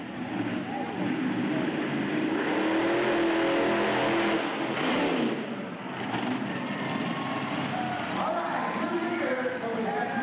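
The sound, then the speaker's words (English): Monster truck engines roar and rev at a Monster Truck Racing Super Series show at a rodeo stadium in Springdale. The dense, loud engine noise continues without a break for the whole stretch, with surges in the revving. “Parsons Stadium in Springdale, home to Rodeo in the Ozarks, was the host of the Monster Truck Racing Super Series the final weekend of May.”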